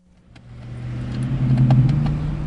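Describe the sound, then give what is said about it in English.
A car engine hums low and steady as the driver circles San Francisco streets searching for a parking space, swelling in loudness over the first second and a half, then holding. “This 28-year-old salesman who didn't give his name has been driving the streets of San Francisco for the past 15 minutes searching for a parking space.”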